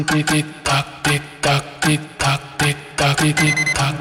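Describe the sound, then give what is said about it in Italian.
An alarm clock rings with an unusual sound: many loud, tonal, rhythmic bursts that pulse on and off in quick, somewhat uneven succession. “la sveglia del morning show di M2O è una sveglia diversa, è una sveglia che fa rumore diverso. Guarda l'orologio nel nostro, quello della sveglia del morning show. Fa così.”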